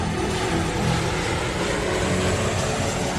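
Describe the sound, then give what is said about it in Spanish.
An airplane flies high above the clouds with a steady, dense, even roar that does not change over the whole stretch, and no voices. “Ahora, el avión está tan arriba que no se logra ver nada más.”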